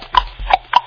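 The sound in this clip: Horse hooves clip-clop in a short burst of a few sharp, hollow knocks, evenly spaced and fairly loud, with no other sound.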